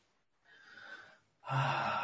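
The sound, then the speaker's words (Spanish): Deep inhalation in a breathing exercise, a soft drawn-in breath lasting under a second, a brief pause while the air is held, then a louder, rushing release of breath. “Bien, entonces tomar una inhalación bien profunda. Estirando, reteniendo durante un momento el aire y ahí. Hacia abajo.”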